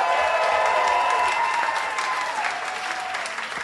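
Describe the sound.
Dense, steady applause from an audience welcoming a guest, loud and continuous throughout, easing off slightly toward the end.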